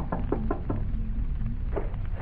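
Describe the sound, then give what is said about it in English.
Knuckles knock on the door of a house in a 1540 Dutch town scene. A quick, evenly spaced series of dull knocks comes first, then a pause, then a few more knocks. “Suddenly, he stops before the door of a house and knocks.”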